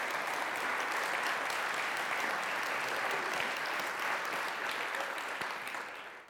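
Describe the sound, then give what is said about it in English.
Sustained applause from a church audience, a standing ovation for a couple's fortieth wedding anniversary: dense, even clapping that holds steady throughout and tapers off at the very end. “My wife gives a standing ovation because she's married to me and she knows how hard that's got to be.”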